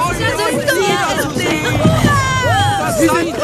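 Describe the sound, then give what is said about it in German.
Villagers greet an arriving rowboat at a village beach with a joyful, dense crowd hubbub: overlapping excited voices, shouts and occasional whoops form a steady, loud babble throughout. “Das Ruderboot erreicht nach ruhiger Überfahrt den Dorfstrand und wird von den Bewohnern freudig begrüßt.”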